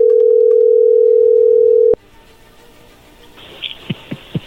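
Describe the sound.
Steady telephone tone as a call is being dialed, loud and unbroken for about two seconds, then abruptly cut off, giving way to faint line noise and a few soft clicks.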